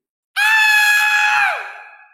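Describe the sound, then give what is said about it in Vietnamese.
A loud, piercing scream rings out abruptly after a brief silence, held at a high, strained pitch, then drops lower and fades away at the end. “Một tiếng hét vang dội, quả thực có thể làm xuyên thủng sắt thép, nứt vỡ đất đá, vang vọng khắp Thánh Hoàng Cung”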